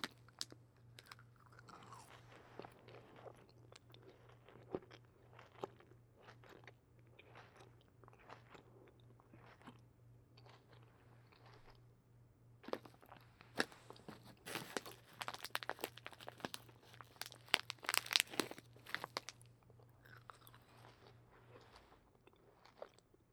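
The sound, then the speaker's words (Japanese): Crisp chewing and crunching of food: many sharp bites and crunches in an irregular rhythm, growing louder and denser in the later part, over a faint steady low hum. “じゃあ食べるよ。”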